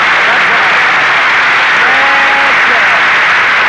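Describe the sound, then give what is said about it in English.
Studio audience applause on a comedy variety show from Palm Springs, California, with many hands clapping loudly in an unbroken roar and a voice speaking briefly over it toward the end. “now Harris is here to start things popping, so shower me with that sun-kissed applause.”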